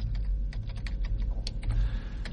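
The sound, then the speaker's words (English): Quick, irregular keystrokes on a computer keyboard, continuous and moderately loud over a steady low hum. “Let me I'm trying to type something in here.”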